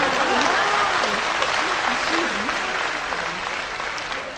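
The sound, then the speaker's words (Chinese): Audience applause at a stage performance: dense, steady clapping that holds loud throughout and eases slightly toward the end, with a voice speaking over it. “掌声不热烈吗？”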